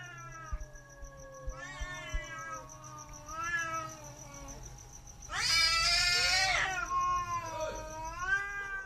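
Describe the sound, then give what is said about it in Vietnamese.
Two cats fighting, growling and yowling with wavering, drawn-out cries like crying children, rising to a loud, harsh screeching burst midway before the long yowls continue. “Hai con mèo bắt đầu gầm gừ nhau, kêu lên những tiếng ngoào ngoào, nghe cứ như trẻ con khóc, sợ lắm.”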